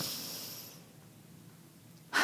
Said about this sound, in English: Just stop, take a deep breath, do it with me now,